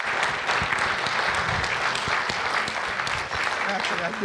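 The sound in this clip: An audience claps steadily and loudly to welcome a speaker onto a stage. The dense applause runs the whole time, with voices faintly mixed in.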